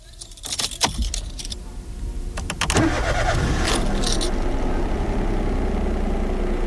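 Keys jangle, then a car engine starts and settles into a steady running hum for a drive through the Marais Breton toward the ecomuseum. Sharp clinks come first, then the catch of ignition, then a constant drone.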